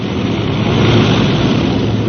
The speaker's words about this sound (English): Well, there's life, there's hope. Those engines are coming alive again.